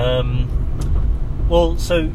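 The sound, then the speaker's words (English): Steady low engine and road rumble from a car being driven to work, running continuously beneath a person talking. “I'm actually driving to work, which is often a good time to record these.”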